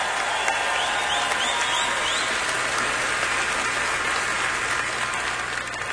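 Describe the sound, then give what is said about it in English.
Applause from a Grand Ole Opry audience for first responders and military personnel: dense, steady clapping that holds at an even loud level throughout, with no voices over it. “And a big hand for all of our first responders. And a big hand for all of our active military personnel in the audience this evening.”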